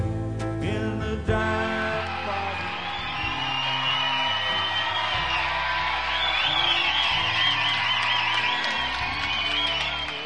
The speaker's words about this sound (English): what were those people cheering for? Was it the latest pop star or TV contest idol? No, those people were cheering for a 75-year-old professor